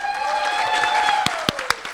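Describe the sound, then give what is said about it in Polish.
Applause from an audience at an award ceremony honoring a first music teacher: a steady patter of clapping under a man's voice, ending in a few sharper, louder individual claps. “Pani Maria Pyra, wielkie brawa.”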